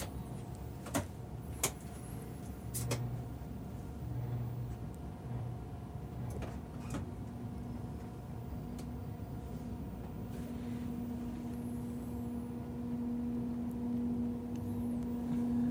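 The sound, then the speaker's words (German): Door-locking clicks on a long-distance passenger train, followed by the train starting to move: a few sharp knocks early on over a steady low rumble, then a humming drive tone that swells gradually louder to the end. “So, jetzt werden die Türen noch verriegelt. Ja. Und jetzt geht's los.”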